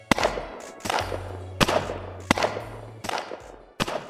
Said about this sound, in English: You hear shotgun blasts in the distance.